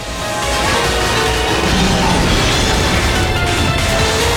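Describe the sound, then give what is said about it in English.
Missiles launch and explode in a video game, heard as a loud, continuous, rumbling roar of blasts that sustains for about four seconds with no clearly separate bangs. “Missiles! Missiles away!”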